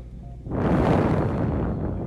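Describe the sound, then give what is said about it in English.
A deep breath drawn in during a guided breathing exercise: a loud, airy rush that swells after half a second and holds steadily, easing slightly toward the end. “We breathe in.”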